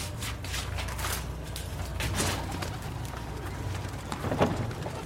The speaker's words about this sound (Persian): از قفس کبوترها یکیشونو بر میداره.